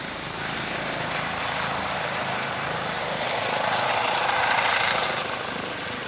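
An emergency-doctor rescue helicopter in flight gives off a continuous broad engine and rotor roar that swells slightly toward the end before easing.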